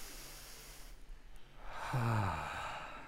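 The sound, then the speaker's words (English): A deep breath taken as a calming pause: quiet, soft airflow swelling into a louder, partly voiced exhale like a sigh, with no talk. “If we could, can we just stop and just take a deep breath?”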